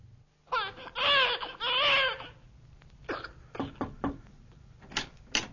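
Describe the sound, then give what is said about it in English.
A newborn baby cries in two strained, wavering wails, then breaks into a run of short whimpers, sputters and catches of breath, all fairly faint. “Can't you hear it, Mary? It's a baby. Well, of course it's a baby.”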